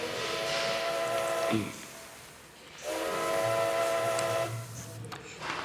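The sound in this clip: Steam train whistle: two blasts over a steady hiss, a shorter one followed by a longer one after a brief pause.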